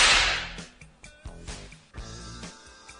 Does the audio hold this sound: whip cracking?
yes